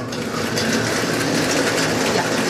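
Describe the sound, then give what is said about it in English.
Bingo ball machine running during a bingo game, producing a steady, continuous whirring rattle with no clear breaks, moderately loud throughout. “All right, I'm going to turn on the machine.”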